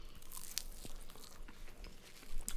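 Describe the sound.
Crisp crunch of teeth biting into a barbecue-glazed chicken nugget, a few faint crunchy bites and chewing sounds heard alone without talk.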